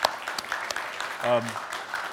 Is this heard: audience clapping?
yes